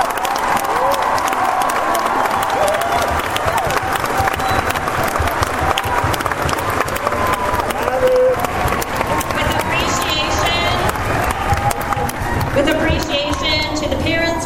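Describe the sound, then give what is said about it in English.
Sustained audience applause at a high school graduation ceremony: a large crowd clapping in a dense, even roar that continues at full strength for the whole stretch, with some cheering mixed in and a voice speaking near the end. “Can we give them a round of applause?”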